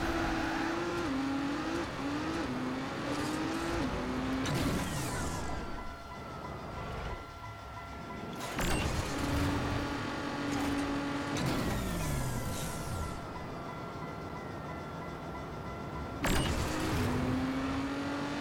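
Racing-car engines whine in the video game Trackmania, their pitch repeatedly climbing and dropping as the cars accelerate and shift. A few sharp bursts cut through the continuous engine drone.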